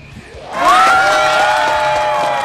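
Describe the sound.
A crowd breaks into cheering and whooping after a correct quiz answer, bursting in suddenly at about half a second and staying loud and steady to the end.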